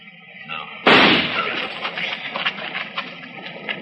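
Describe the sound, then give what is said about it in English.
A single gunshot fired at a tree during an outdoor standoff: one sudden loud crack followed by a long, rough ringing decay. “Roll away as soon as I fire.”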